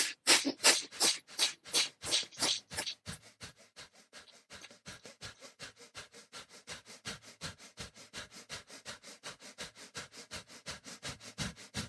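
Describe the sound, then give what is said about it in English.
Rapid, forceful breathing during a meditation exercise, with many short, sharp breaths in a quick, even rhythm. The breaths are loudest over the first few seconds, then continue more softly and steadily. “Deep breath in and begin.”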